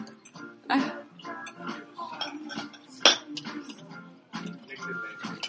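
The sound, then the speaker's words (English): A fork clinks against mussel shells while scooping out the meat at a seafood restaurant. A couple of sharper metallic clicks stand out over soft, intermittent background voices. “You just take a fork and scoop it out.”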